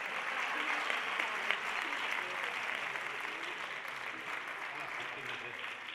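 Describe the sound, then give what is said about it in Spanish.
Audience applause at a national theatre competition gala in Pinto: dense, continuous clapping that holds steady for six seconds and eases off slightly toward the end. “Si queréis, mientras me organizo, estar aplaudiendo algo”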